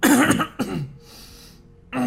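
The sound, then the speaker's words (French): A person coughs twice: harsh, throaty bursts, the first longer and partly voiced, followed by a quiet pause before a voice begins at the very end. “Moi, je tousse.”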